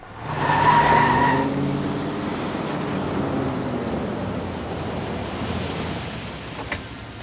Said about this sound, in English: catches up with the car and pulls in behind it